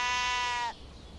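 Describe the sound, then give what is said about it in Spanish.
A single sheep bleats as a shepherd leads a flock out to fresh grass on the first slopes near Bethsaida. It is one sustained, wavering bleat, fairly loud, that breaks off sharply and leaves quiet background noise. “Marcián, que en ese momento estaba saliendo con sus ovejas para llevarlas a pastar a la hierba fresca de las primeras pendientes de Betsaida.”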